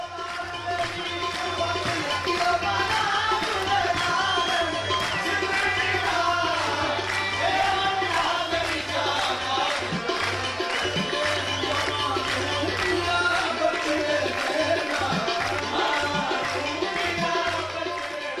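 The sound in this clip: Dense, steady clapping from an ecstatic audience at a qawwali performance, blended with loud sung music that runs unbroken throughout.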